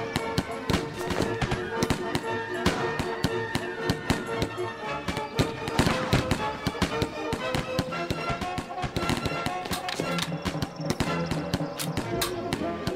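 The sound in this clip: Musketeers fire their guns in dense, irregular volleys, with many sharp cracks following one another in rapid succession and no let-up across the whole stretch.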